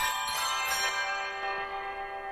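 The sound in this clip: Bells ring a Christmas carol, with sustained overlapping metallic tones that slowly fade out. No voices.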